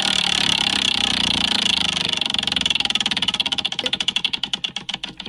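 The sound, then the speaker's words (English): A prize wheel spins with a loud, rapid ratcheting clatter of clicks, which gradually slow and spread apart as the wheel winds down. No talk is heard. “So, time for the wheel. Time for the wheel.”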